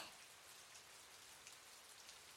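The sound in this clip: Rain falls steadily during a thunderstorm, a soft, continuous patter of many drops. It stays faint and unbroken throughout, with no voices.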